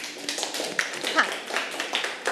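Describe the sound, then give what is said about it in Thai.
Classroom students clapping for the first group after its presentation, a dense, quick patter of many small claps of even loudness with voices mixed in. “ปรบมือให้กับกลุ่มที่หนึ่งค่ะ”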